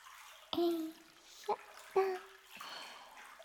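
Hot spring water drips and splashes faintly into a pool: three distinct liquid plinks stand out, with a soft trickle and hiss between them.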